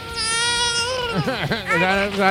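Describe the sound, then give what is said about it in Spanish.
A baby cries in a loud, sustained, high wail. The pitch wavers and dips sharply in the middle, then rises again and continues without a break. “Ah, ya se acabó, ya no llora más el bebé.”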